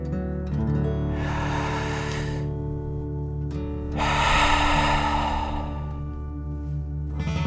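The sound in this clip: Deep breathing during a guided relaxation exercise: one long airy breath is drawn in, then a fuller, louder breath is pushed out, both over a steady sustained musical drone.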